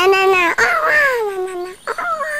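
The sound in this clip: A battery-powered toy baby doll gives an electronic crying wail, a sustained wavering tone with a clear pitch. The cry breaks off briefly, resumes, then cuts out before a shorter wail follows.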